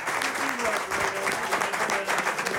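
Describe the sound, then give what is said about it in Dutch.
Studio audience applause, dense and steady clapping that holds at an even level throughout, with a voice speaking over it. “ben je ooit met zoveel applaus onthaald voor je uitzending?”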